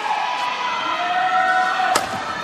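A single sharp smack rings out from a badminton jump smash, played from the back court off the return of serve, over steady crowd noise in the arena.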